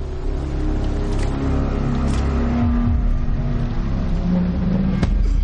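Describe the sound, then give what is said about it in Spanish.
A car engine roars as the car rams into another vehicle, a loud, steady, rumbling drive that continues throughout, with a brief sharp knock near the end. “Wade embiste el coche lanzando a Balísnikov fuera.”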